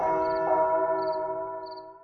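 A church bell rings from a bell tower in the morning, a sustained, resonant tone with layered humming overtones that slowly fades over about two seconds.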